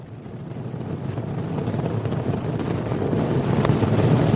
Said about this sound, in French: Cette fusée nous emmène presque dans les étoiles.